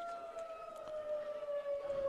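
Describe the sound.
Tornado siren blaring during a district championship game: a faint, sustained wailing tone that holds steady with a slight downward drift in pitch, alone without voices.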